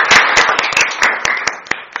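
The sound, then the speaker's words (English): A brief round of applause at a council meeting after a vote passes. A few people clap in scattered, distinct hand claps that thin out and grow sparser toward the end. “And congratulations. We're going to get used to rounds of applause from up here.”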